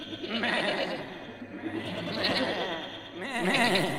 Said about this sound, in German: Ich muss die Ziegen aus dem Stall lassen, sonst verhungern sie.